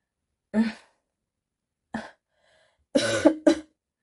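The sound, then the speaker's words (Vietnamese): Soft coughing from a feverish man with a hoarse voice: a few short, dry coughs spaced apart, the later ones coming closer together, with no speech. “Lạc Nghệ khẽ ho một tiếng.”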